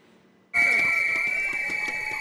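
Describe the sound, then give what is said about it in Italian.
Protesters blow whistles at a metalworkers' union march over car-industry job cuts outside a Wolfsburg car plant. A piercing whistle tone starts abruptly and holds loud and steady, with further whistling layered beneath it. “Marciano con i fischietti e le bandiere rosse del sindacato IG Metall.”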